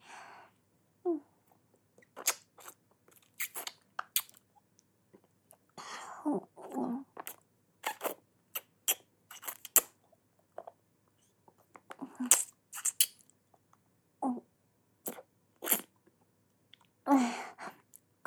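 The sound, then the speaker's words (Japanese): Ice cream being eaten, heard as many short, wet mouth sounds, licks and smacks in an irregular rhythm, fairly quiet and close, with silent pauses between them. “風呂上がりはアイスだよね。お兄ちゃんも食べたくなってきたんじゃない？”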